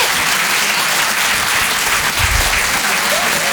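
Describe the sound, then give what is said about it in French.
Loud, sustained applause from a comedy club audience in Paris: dense, steady clapping fills the whole stretch without a break and stays even in volume from start to finish. “Wow, ouais, c'est bien public, vous pouvez vous applaudir très très fort”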